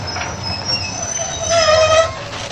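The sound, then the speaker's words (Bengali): A train pulling into a station rumbles steadily while its wheels squeal in high, thin tones that grow louder and more sustained in the second half before easing off. “Kolkata থেকে train যথাসময়ে এসে পৌঁছল কটকে।”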